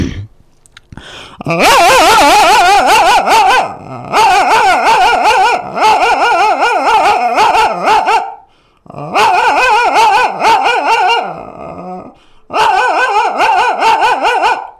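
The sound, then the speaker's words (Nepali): A man's voice imitates a small dog barking, with loud, rapid, high yaps and whiny yelps in several long bursts separated by short pauses. “कोही पाहुना आएर भुक्छ, कुकुरको आवाज बनाउँछ दादा. ए लौ न लौ, सानो कुकुरको है.”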